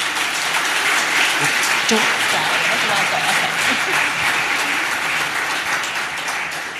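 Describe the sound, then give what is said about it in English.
An audience at a book event applauds an author with dense, sustained clapping that holds steady and then eases slightly toward the end. “Please put our hands together for Natasha Lester.”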